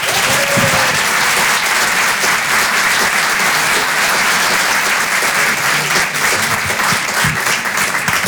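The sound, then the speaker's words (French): A stand-up comedy audience applauds a comedian with loud, dense clapping that holds steady across the whole stretch without a break. “Faites un maximum de bruit, s'il vous plaît, pour Aymeric Carré.”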